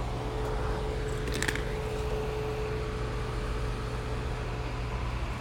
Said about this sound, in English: See, we got the motors right here getting magnetized. We got the magnetizer on.